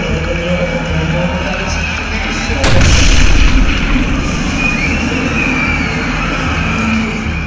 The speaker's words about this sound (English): Then at approximately 2:49 p.m., the first bomb detonates